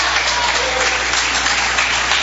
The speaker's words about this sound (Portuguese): Pode adorar o Senhor com palmas, pode adorar.